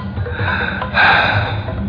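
Heavy breathing as someone slowly moves along while steadying their breath, made of long airy breaths with a sharper, louder inhale midway.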